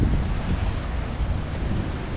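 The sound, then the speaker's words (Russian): Cold wind blowing outdoors, heard as a steady, loud low rumble of gusting air buffeting the microphone, continuous for the whole moment with no voices. “А вот ветер по-зимнему холодный.”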